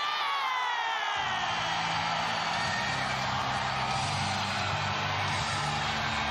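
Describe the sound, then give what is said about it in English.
A stadium crowd chants in a loud, sustained roar of many voices that swells shortly after the start and continues unbroken. “Play, lead, tet! I'm just repeating what the crowd said.”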